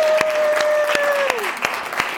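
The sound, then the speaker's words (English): Applause from an audience welcoming a speaker to the stage: a steady wash of clapping with a few sharp, louder claps standing out and a thin high tone sliding downward partway through. “Ladies and gentlemen, please put your hands together and give a warm welcome to Rebecca Walker.”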